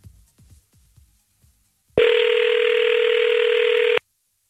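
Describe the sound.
A loud, unbroken telephone dial tone holds for about two seconds as a late-night radio show places a call to someone abroad; a few faint low thumps come just before it.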